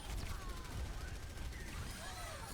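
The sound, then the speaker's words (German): Sustained gunfire in a shooter video game, a rapid, rattling stream of shots that runs without a break and sits fairly low in level. “Schon wieder. Ich habe ihn in den Kopf geschossen.”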